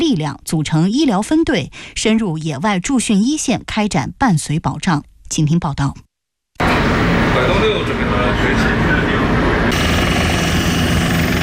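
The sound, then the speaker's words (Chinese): Loud, steady rotor and engine roar of several types of army helicopters lifting off in turn during a water search-and-rescue training exercise. It begins after a stretch of speech and a brief silence, then holds as a dense, even wash. “随着塔台指令下达，陆军第72集团军某旅多型直升机依次升空”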